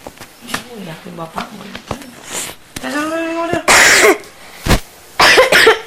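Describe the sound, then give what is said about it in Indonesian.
A few harsh, explosive coughs, loud and abrupt, following a short stretch of voiced sound; the bursts come in quick succession with brief gaps between them. “Batuknya.”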